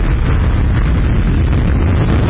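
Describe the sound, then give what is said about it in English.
A loud, steady, rumbling roar from a recycled SpaceX rocket lifting off from Kennedy Space Center in Florida on the Crew-2 mission, continuous and unbroken throughout. “SpaceX has successfully launched 4 astronauts into space aboard a recycled rocket about 6 a.m. Eastern Friday morning.”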